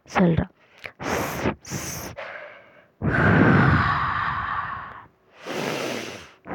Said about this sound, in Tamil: நல்லா சத்தமாக மூச்சு என்ன பண்ணுறான், விட்றான்.